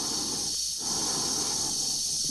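Dave's breathing inside his suit in the film 2001: A Space Odyssey, a steady airy hiss of breath and oxygen flow that dips briefly once before resuming evenly.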